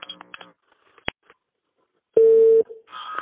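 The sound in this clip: Telephone tones as a call is ended and redialed: a brief soft voice, then a sharp click and a few faint ticks. A loud, steady beep lasts about half a second, followed by a fainter tone.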